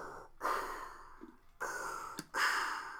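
Mechanical respirator breathing of a masked film villain, a sound effect of slow, hollow hissing breaths that alternate in a steady rhythm with short pauses between them, faint overall.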